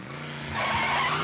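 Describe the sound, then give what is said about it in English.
Tires squealing on a Chevy Chevelle Super Sport with a four-speed manual gearbox, a short screech over a revving engine that grows louder partway through. “he drove a Chevy Chevelle Super Sport, bucket seats, 4 on the floor.”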